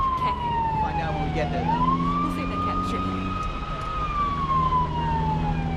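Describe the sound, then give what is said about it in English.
A fire truck's wailing siren sounds as the truck pulls out of the fire station. The pitch sweeps down, climbs back up and holds, then slowly falls again, over a low engine drone. “The camera judders as the fire truck moves out of the station. The camera catches a glimpse of the flashing lights on the second fire truck.”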